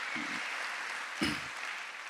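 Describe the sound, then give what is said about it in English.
Applause for someone during a sermon, a faint, even wash of clapping that runs steadily through the whole stretch. It swells slightly with a low thump just past the middle. “thanks Nardis, let's give him a round of applause”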